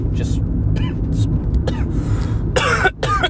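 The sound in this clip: A man coughs after something goes down the wrong pipe while speaking. Scattered throat sounds give way to a loud burst of several harsh coughs near the end, over a low steady background rumble.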